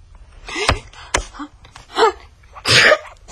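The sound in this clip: A sneeze among a few short, sharp breathy bursts and throaty noises, separated by brief quiet gaps, with no talking.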